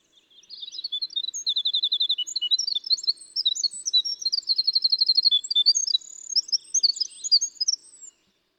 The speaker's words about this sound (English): Let's let everybody listen to this beautiful flute-like sound of the winter wren.